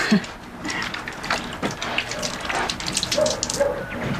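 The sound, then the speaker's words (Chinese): Running tap water pours steadily as hands are washed beneath it, giving a continuous, fairly even hiss with light splashing and no clear voices. “我们去洗手先，走。”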